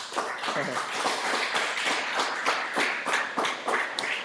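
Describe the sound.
A church audience claps rhythmically to acclaim the Lord, with quick, regular hand claps at a steady pace and voices mixed in underneath.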